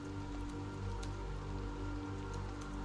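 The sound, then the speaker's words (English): Steady rain thudding down on a roof, a constant dense drone of overlapping drops with no pauses, even in loudness throughout. “The rain is still sort of thudding down outside. It's hitting the roof. You sort of hear the constant drone of it.”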